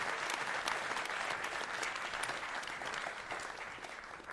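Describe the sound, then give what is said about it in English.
Dense, steady applause from a theater audience at a live comedy show in London as a volunteer goes up on stage. The clapping stays full and even throughout and eases off slightly toward the end. “Hey, let's give everybody a hand. Let's give Miriam a hand”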